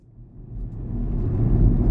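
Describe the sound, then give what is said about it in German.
A car driving through the countryside of County Sligo in Ireland, its low engine and road rumble steadily growing louder, with no voices. “Kevin Barry fährt durch die irische Grafschaft Sligo”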